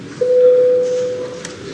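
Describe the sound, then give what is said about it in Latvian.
A bell rung in parliament to call members to a vote on an immigration law sounds as one steady, sustained electronic-sounding tone held for about a second at moderate loudness, then fading out. “Lūdzu zvanu”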